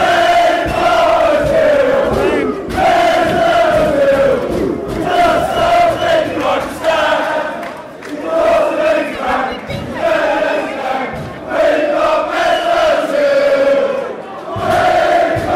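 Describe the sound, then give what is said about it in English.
Arsenal football fans sing together inside the stadium shortly before a game: a loud, continuous massed chant with a rhythmic, repeating melody that rises and dips in waves throughout. “We're in the stadium itself. The Arsenal fans are singing, and you'll be able to hear the exact moment the batteries conk out on the recorder.”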